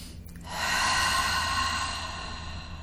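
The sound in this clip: A deep breath drawn in: one long, steady inhale begins after a short pause and rushes on for about two seconds, fading slightly at the end, heard alone with no talk.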